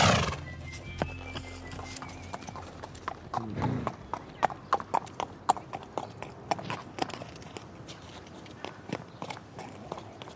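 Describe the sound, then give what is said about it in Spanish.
Horse hooves clip-clopping during a horseback ride, with many sharp, uneven hoofbeats in a loose, steady rhythm over low background noise. “Solo escuchas el galopar del caballo”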